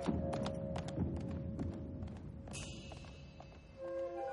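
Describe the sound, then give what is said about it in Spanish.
Horse hooves clip-clop as a rider climbs a mountain toward Chamdo in Tibet, many hoofbeats in a steady, even rhythm, sharp and clear. “Al rato, un jinete sube la montaña hasta Chamdó.”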